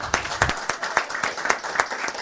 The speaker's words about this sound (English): Let's give him a round for that one.